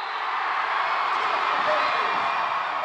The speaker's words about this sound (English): It's the sound of victory again, the volleyball team winning yet another match, their 22nd in a row to be exact.